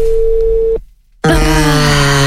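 Telephone ringing tone on an unanswered call: a steady electronic tone cuts off into a brief silence, then a louder, richer tonal sound starts and holds to the end.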